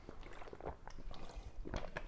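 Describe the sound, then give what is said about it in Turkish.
Someone drinks water with faint, wet swallowing and gulping sounds, a few soft liquid squishes in quick succession. “Pardon, bir su içeceğim.”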